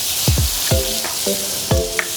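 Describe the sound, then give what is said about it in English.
Sizzling of an egg dropped into a hot greased pan with frozen vegetables, a steady bright hiss with a few lower swooping tones, no talk. “So I throw my egg in now.”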